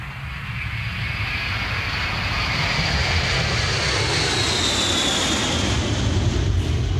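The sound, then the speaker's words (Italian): Steady airplane drone from a sound effect of an aircraft in flight: a loud, unbroken engine and rushing-air roar that holds at an even level throughout, with no voices. “Roberto Scaltritti con un effetto ci ha portato proprio in aereo”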